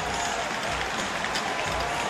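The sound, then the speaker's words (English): A roaring ice hockey crowd cheers a fight on the ice as one player takes the other down, a dense and steady wash of noise that stays loud throughout. “Spada gets the takedown, and the crowd is loving it.”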